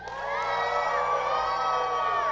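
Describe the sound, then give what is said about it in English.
A crowd of children cheers and whoops for a girl about to race in flip-flops, their high shouts rising together and holding loud and sustained for about two seconds. “Everybody that thinks Emily can win even with flip-flops on, give her a cheer.”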